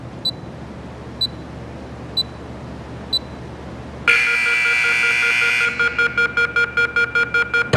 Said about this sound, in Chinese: 锁上就计时了。 啊，好好。啊，这就计时了。 哎，对，你听声音再出来啊。